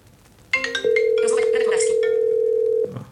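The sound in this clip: A phone call rings out after being placed by voice command on an Apple HomePod Mini. One steady, loud tone of about two seconds plays while a voice speaks over its start.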